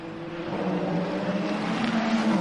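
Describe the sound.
Ferrari race car on a racing track, its engine droning in a steady, buzzing note with layered harmonics and a slight rise in pitch, at moderate loudness with no talk.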